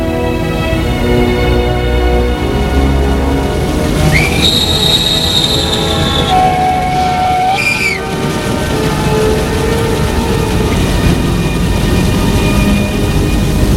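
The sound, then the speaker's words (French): A train rumbles steadily at a railway station, with a couple of high squealing tones rising out of the noise in the middle stretch before the even, loud rumble carries on alone. “À la gare pour qu'il prenne un train pour aller voir sa mère en Pays de Loire.”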